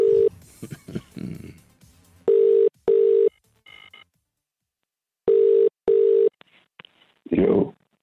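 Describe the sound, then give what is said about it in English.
Telephone ringing tone while calling someone: two pairs of short, steady beeps separated by a pause. Talk comes before the rings, and a voice answers at the end. “Dialing him up.”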